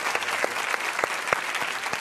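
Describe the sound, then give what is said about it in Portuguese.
A studio audience applauds in a steady patter of many hand claps. It is fairly soft and even throughout, with no cheering. “nós temos hoje o professor Leandro Karnal, podem aplaudir.”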